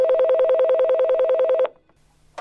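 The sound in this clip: A telephone ringing with a fast, steady electronic warble for about a second and a half. It cuts off abruptly, followed by quiet and a short click.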